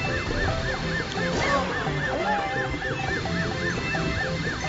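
A video game siren wails in many quick, evenly repeating rise-and-fall cycles, steady and loud from start to end over a dense bed of other game sounds.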